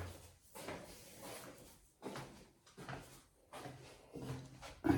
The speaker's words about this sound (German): Schließen wir die Fenster nochmal.